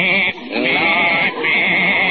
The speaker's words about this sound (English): I got my goat here